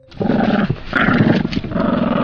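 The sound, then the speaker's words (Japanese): A dog growls in a low, rough, loud rumble, held in two long stretches with a brief break between them, with no talk over it. “って犬。 こんなところにちょうどいい。非常食にしましょう。”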